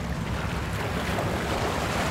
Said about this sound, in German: Haushoch wirken von hier die Frachter, die an der Insel vorbei nach Norden rauschen.